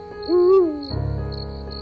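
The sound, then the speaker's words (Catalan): A little owl gives a single rising hoot from a pine tree beside a round pond in a village, with a faint steady insect chirr running throughout. “si parem bé l'orella, podrem escoltar un mussol que viu al pi de la bassa rodona.”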